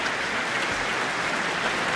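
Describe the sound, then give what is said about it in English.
Rapturous applause from a concert audience in Auckland as an orchestra and its conductor take a bow at the end of a romantic first half: dense, steady clapping throughout, with no voices. “Rapturous applause from the audience. They seem very pleased.”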